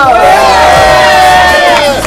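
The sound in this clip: A studio audience at a live show cheers loudly: many overlapping voices whoop and shout, with wavering high-pitched cries running steadily throughout.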